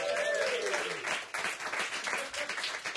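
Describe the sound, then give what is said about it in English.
A live audience applauds at the first taping of a show. The clapping is dense and steady, with a brief whistle-like tone near the start. “this is the very first taping of the show in front of a live audience, so that's kind of awesome. Give yourselves a hand.”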